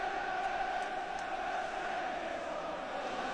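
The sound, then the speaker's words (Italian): Manchester City fans celebrate in the stadium at a match against Roma, a steady, even roar of crowd noise that never breaks into distinct voices or clear chants. “Grande festa da parte dei tifosi del City.”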